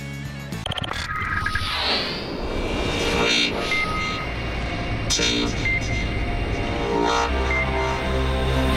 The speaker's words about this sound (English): The Porsches are rolling. The flat sixes are fired.